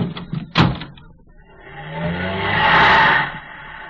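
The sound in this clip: Car door slams shut with one sharp thud, followed by a short lull, then the engine revs and swells as the car pulls away before easing back to a lower hum.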